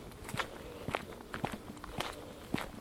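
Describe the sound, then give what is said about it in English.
Footsteps walking through the woods: five even, unhurried steps, each a soft crunching thud, spaced about half a second apart against a quiet background. “We're walking through the woods. One of my favourite pastimes.”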